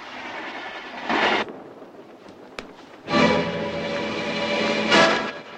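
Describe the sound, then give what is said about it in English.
A train moves along the rails with a steady, loud rumble and rolling clatter of wheels, swelling into two louder surges, no voices. “The train moves on.”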